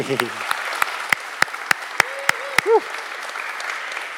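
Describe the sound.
Sharp claps from an audience welcoming a guest come in a steady, evenly spaced series of crisp hits, with brief voice sounds at the start and a short vocal call near the end.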